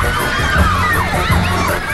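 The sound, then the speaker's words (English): A manic crowd of fans shouting and screaming as they chase through a London street, a dense, loud and continuous roar of excited voices from start to finish. “The manic swarm of fans surges around a corner, watched by a bemused beefeater and a London bobby.”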